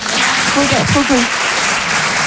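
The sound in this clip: A comedy audience applauds in a dense, even patter of clapping that holds steady throughout, with a voice briefly speaking over it.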